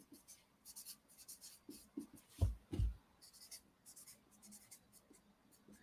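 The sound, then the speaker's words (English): A pen or marker draws a diagram in many quick, scratchy strokes arranged in uneven clusters, with two heavier low knocks near the middle, as if the tip presses or taps the surface. “I'm going to draw a diagram. Hang on.”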